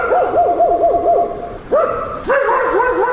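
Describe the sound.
Stray dogs barking on a city street at dusk, a rapid run of high, wavering yelps followed by two louder, drawn-out howling barks, all fairly loud with no talk.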